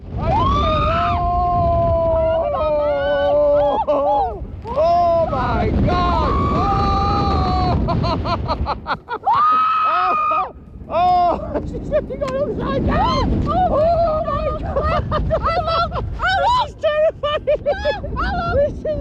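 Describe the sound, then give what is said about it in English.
Riders scream and yell on a 138-foot roller coaster at Blackpool's Pleasure Beach Resort, the tallest of its kind in the UK. Their loud, sustained, wavering shrieks overlap with gusts of wind noise, with one short lull midway. “Well, that's the sound of people on roller coasters, isn't it?”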